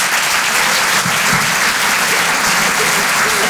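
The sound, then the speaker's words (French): A comedy club audience applauds to welcome a performer to the stage, with steady, loud, dense clapping that holds from start to end and no voices on top. “Je vous demande de l'encourager, s'il vous plaît, faites du bruit pour Rémi Boy.”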